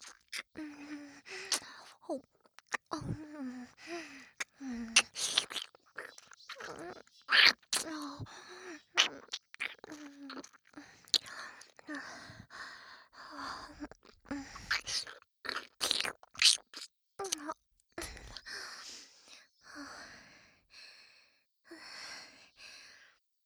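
Wet licking of a listener's ear in ASMR, close mouth sounds in irregular bursts over a long stretch, with soft sighs and breaths between them.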